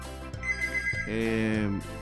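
A telephone ringing with an incoming call, its tonal electronic ringtone sounding in held, melodic notes that run through the short clip at moderate loudness.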